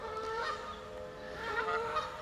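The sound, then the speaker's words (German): Tame geese honk and call near a spot where one of them is brooding, a steady layered chorus of nasal, harmonic cries that swells slightly toward the end, with no talking. “Da drüben scheint nämlich eine von den Gänsen zu brüten.”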